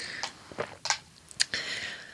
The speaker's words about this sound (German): Ich muss erst mal einen Schluck trinken.